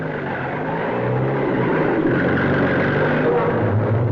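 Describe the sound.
A staged sound effect of a car driving on a rough ride, a low, steady engine drone with even rumbling loudness throughout.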